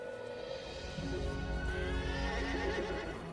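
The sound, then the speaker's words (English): Horses galloping across grass, a dense continuous rumble with loud whinnying rising above it throughout. “The horses gallop across the grass.”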